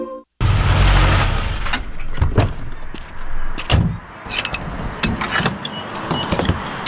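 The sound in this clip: A fuel pump filling a car's gas tank: a loud, steady rushing flow that begins abruptly and continues throughout, broken by a series of sharp mechanical clicks and clunks.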